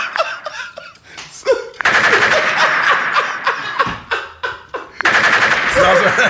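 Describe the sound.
Rapid gunfire as a shooter keeps firing into a dead body: long, loud bursts of automatic fire that repeat in waves, mixed with talking and laughter.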